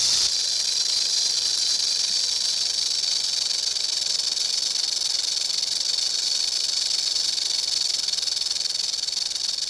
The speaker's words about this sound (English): You heard the distinctive sound of a rattlesnake.